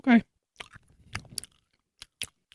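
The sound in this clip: Chewing on a green fruit-flavored candy: a short vocal sound at the start, then a few soft, sparse crunches and moist clicks, faint and irregular.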